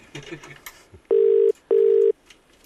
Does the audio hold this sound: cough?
no